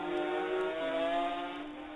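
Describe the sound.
Racing motorcycles pass at Ballacrane during a road race, two riders close together, their engines a loud, sustained buzzing whine whose pitch drops noticeably as they go by, then holds steady.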